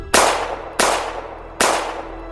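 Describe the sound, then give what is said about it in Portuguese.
Three gunshots fired into a young man's chest: sharp, loud, evenly spaced cracks, each with a ringing tail that fades before the next. “atirou três vezes no peito do rapaz.”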